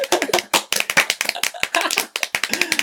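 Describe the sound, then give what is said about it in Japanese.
Hands clapping in applause to welcome a first-time reading club event: a quick, steady run of many sharp, bright claps over a few seconds, with no talk over them. “拍手 拍手”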